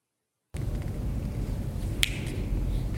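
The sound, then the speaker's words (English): A single sharp finger snap rings out in a casemate at Fort Mifflin in Pennsylvania, a brief bright crack partway through, heard over a steady low background hiss that begins after a moment of silence. “actually it was a disembodied finger snap that we heard in one of the casemates in Fort Mifflin in Pennsylvania.”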